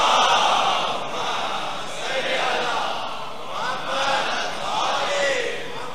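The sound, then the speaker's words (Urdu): A crowd chanting a slogan: many voices raised together in loud, rhythmic swells that repeat several times over a constant murmur. “میں پریشان ہوتا ہوں, یہ نعرے کی آواز آ کہاں سے رہی ہے؟”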